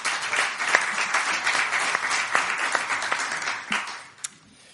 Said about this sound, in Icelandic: Ekki hún góð klapp eða?